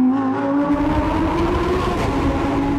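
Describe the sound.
Naturally aspirated Lamborghini V10 engine driving into a tunnel, giving a loud, dense harmonic drone at a fairly even pitch over a rough low rumble.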